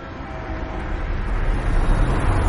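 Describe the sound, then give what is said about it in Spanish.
A car drives toward them on a road at night, its engine and tyre rumble growing steadily louder and deeper as it approaches. “Un coche circula hacia ellos y los deslumbra con los faros.”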